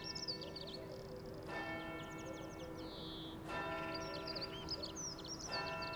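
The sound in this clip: A church bell strikes noon with three evenly spaced, ringing strokes about two seconds apart, each decaying slowly. The sound is quiet, with birds chirping continuously above it.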